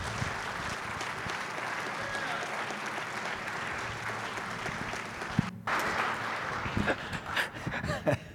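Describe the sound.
Steady crowd applause fills a church service as a guest speaker is welcomed onto the stage, sustained clapping holding at an even level throughout.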